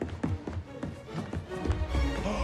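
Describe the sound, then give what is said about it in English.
Running footsteps of a character dashing toward a book: many quick, evenly spaced footfalls in a steady rhythm over a low rumbling background. “Gilbert runs to the book.”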